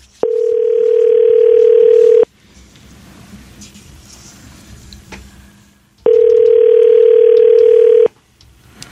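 Telephone line tone while a call is being placed: two long, steady tones of about two seconds each, loud and even in pitch, separated by a longer stretch of faint rustling background noise.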